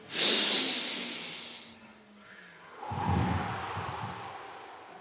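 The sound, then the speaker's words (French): A group of people take one deep, hissing breath in together, then release a loud, breathy exhale after a brief pause. No other sounds or talk accompany the breaths. “on inspire très fort et puis on expire très fort. Et on n'a pas peur de faire du bruit.”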